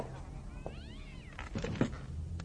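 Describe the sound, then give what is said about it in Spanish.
Faint cat meowing in a dining room: one drawn-out, wavering meow followed by a few short, scratchy sounds, with no talk. “Los gatos dejan de maullar.”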